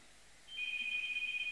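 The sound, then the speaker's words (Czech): Telephone ringing with a steady, high-pitched electronic tone. It starts after a brief quiet moment and holds unbroken and fairly faint to the end, with no voices. “Asi mě volá svatý Petr, slyšíte?”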